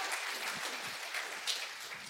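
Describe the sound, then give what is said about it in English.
Audience applause greets three guests called up to the stage: a steady, dense wash of clapping hands that holds at an even loudness for the whole stretch, with no voices rising above it. “Would you give them a hand?”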